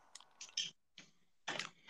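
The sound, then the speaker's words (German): Eating in the video game Minecraft gives a few short crunchy chewing bursts in an uneven rhythm, heard alone without talk. “Ich muss kurz mal an Land was essen.”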